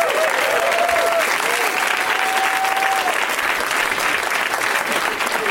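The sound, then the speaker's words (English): An audience claps loudly and continuously as guests are welcomed onto a show, a dense, even wash of applause holding steady for several seconds. “Way to milk the applause.”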